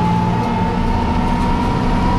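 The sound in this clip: Heavy, steady rumble of a Bushmaster armored vehicle as it drives over 2.5-metre obstacles, a continuous loud engine drone with a faint sustained tone, unbroken from start to finish.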